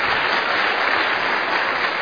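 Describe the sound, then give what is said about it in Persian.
Audience applause at a marriage class: dense, steady clapping from a crowd that stays loud and unbroken throughout. “متأهلا واسه چی دست دادن؟ بله بله، متأهلا بیشتر از مجردا دست دادن.”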